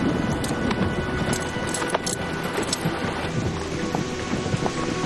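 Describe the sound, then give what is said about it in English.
Driving rain hisses densely and steadily as horses ride off through it, with scattered soft hoof-like thuds and sharper ticks beneath the constant wash of rain. “Out into the driving rain they all go. Sheriff Tyler mounts his wet, soaking horse. Each searcher rides off in the direction of their mission to find the children.”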